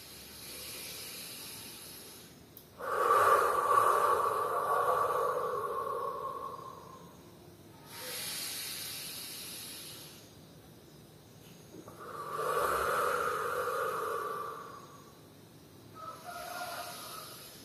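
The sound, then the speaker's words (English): Slow, exaggerated deep breaths are taken during a breathing exercise: long, hissing rushes of air, some louder and some softer, repeating in a few unhurried cycles with quiet gaps between them. “These breaths can even be a little bit exaggerated. You want to feel the breath, you want to touch the breath”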